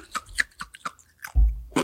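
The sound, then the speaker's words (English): Crunchy ice is chewed in a few sharp, crackly crunches, quiet and irregular, with one heavier crunch near the end. “How's that crunchy ice? Delicious.”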